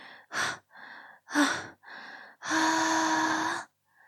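A woman pants in short, breathy huffs, four quick gasping bursts followed by one long, drawn-out exhale, each breath airy and close with brief silences between.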